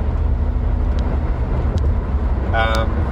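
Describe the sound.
A car is driving, heard from inside the cabin as a steady, loud low rumble of engine and road noise that holds evenly throughout.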